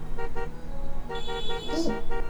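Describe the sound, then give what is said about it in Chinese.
Car horns honk in a traffic jam at a congested intersection: many short toots in quick repeated bursts, fairly loud, over a steady low road rumble. “这喇叭声还是有点太吵了。喂喂喂，请快点走啊！”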